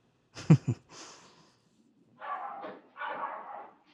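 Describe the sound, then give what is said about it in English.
A dog gives two short, sharp barks in quick succession, followed by softer huffing, breathy sounds. All of it is fairly faint, with no talk. “This is podcasting in a pandemic right here. We each have some dog issues, and they're just happening on the air a little bit.”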